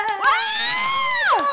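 A woman screams into a microphone: one long, high, piercing cry held at a steady pitch for over a second, then dropping sharply at the end, with nothing else heard.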